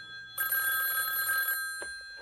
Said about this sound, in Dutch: Dat betekent... Telefoon.